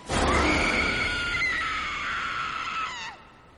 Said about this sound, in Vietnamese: đột nhiên trong thôn vang lên một tiếng hét hải hục